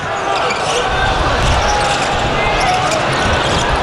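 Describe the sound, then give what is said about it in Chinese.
A basketball is dribbled on the court during a game involving China's national team, with faint repeated bounces under a loud, steady crowd roar. “现在是中国队球权，这边是廖三宁在持球”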